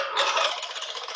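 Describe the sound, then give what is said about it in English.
A topic wheel spins, giving a dense, rapid rattle of clicking ticks that runs steadily for about a second. It is loud and heard alone. “All right, so let's spin this wheel one more time, see what we come up with.”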